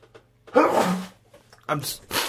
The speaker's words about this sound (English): I'm sorry, I'm sneezing.